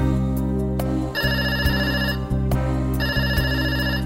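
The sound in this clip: A telephone ringtone trills in two bursts, a bright, rapidly warbling electronic ring over a steady low drone underneath.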